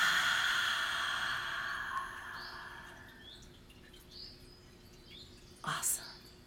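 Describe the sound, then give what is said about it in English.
A slow breathy exhale during a relaxation exercise gives a soft, airy hiss that fades gradually over about three seconds, then quiet follows with a brief louder burst near the end. “Let's take a nice, deep, deep breath in. And release it.”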